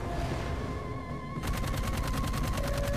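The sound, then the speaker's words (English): Aircraft machine guns fire in a flying video game: a rapid, steady stream of many shots starts partway through and continues to the end, loud over a droning engine tone that fills the opening. “Let's see, right trigger to fire guns.”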